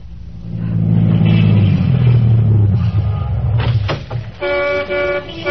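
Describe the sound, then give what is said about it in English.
A brand new Cadillac sedan pulls to a stop on a busy New Orleans corner, its engine rumble dropping in pitch as it slows, then a few short toots of a car horn. “Lawton was waiting on a busy New Orleans corner for his brother when a brand new Cadillac sedan pulled to a stop.”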